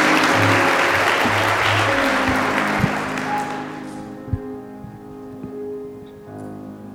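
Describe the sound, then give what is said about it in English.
A church audience claps to welcome visiting singers at St. Paul Church. The applause starts dense and loud, then thins and fades about halfway through, leaving a few scattered claps over faint low tones. “Would you say amen and give a hand of welcome to the singers of the St.”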